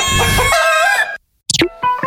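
A rooster crows loudly in one long, harmonic-rich call that breaks off abruptly. After a short silence come a few quick, bright clucking calls.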